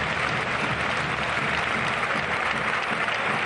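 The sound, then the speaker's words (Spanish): Sevilla home fans react at the final whistle of a match lost to Real Sociedad, with a steady, dense wash of applause and crowd noise throughout. “Esta es la reacción del público del Sevilla, según está el equipo, a pesar de haber perdido hoy contra la Real Sociedad cuando el árbitro ha pitado el final.”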